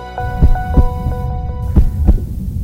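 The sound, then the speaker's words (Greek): Heartbeat of a shop assistant: two low, thudding double beats in a lub-dub rhythm over a steady electronic hum. No voices. “Αυτός είναι ο ήχος του καρδιακού παλμού ενός βοηθού καταστήματος.”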